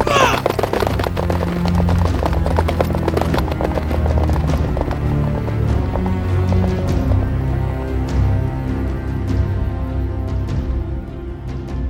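Horses gallop off as riders set out, with a dense, loud, continuous drumming of many rapid hoofbeats that stays steady throughout.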